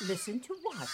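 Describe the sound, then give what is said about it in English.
Harsh, raspy caws from a baby crow calling to be fed, a few short cries with wavering pitch, mixed with a person speaking briefly. “What you're hearing is a baby crow, and it's telling its mama to feed it.”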